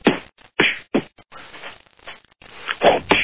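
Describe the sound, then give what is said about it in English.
Punch sound effects suggesting someone hit really hard: a few sharp, heavy thwacks with rough, scratchy noise between them, followed by a denser cluster of hits at the end, with no voices. “How about a punch sound effect? You know, like somebody hitting someone really hard.”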